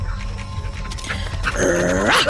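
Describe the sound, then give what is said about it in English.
A dog lets out a short, strained whine with clear tonal harmonics near the end, after a stretch of muffled, noisy rustling. “How dare you bite me? Dog, what are you doing?”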